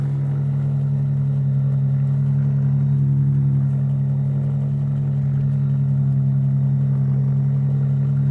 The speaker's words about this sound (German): Und anlassen. Gut, läuft. Wunderbar. Ein bisschen mehr Gas, dass wir über 4000 Umdrehungen kommen.